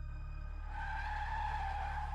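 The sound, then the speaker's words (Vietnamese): A car brakes hard and its tires screech. A sustained high squeal swells in after a moment over a low rumble and carries on to the end. “Tiện giật nảy người khi vừa có thứ gì đó đập mạnh vào kính xe trước, kèm theo tiếng phanh gấp cảm tưởng như cháy cả bánh xe của bác Tài”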